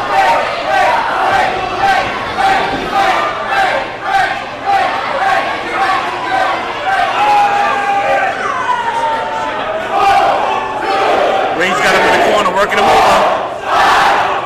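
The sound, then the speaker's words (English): Wrestling arena crowd chanting a count in unison along with the referee. Many loud, evenly spaced shouted beats repeat over a constant crowd roar, with voices talking over it. “The crowd can count. They count very. No, they can. Look, he stopped and they kept on counting.”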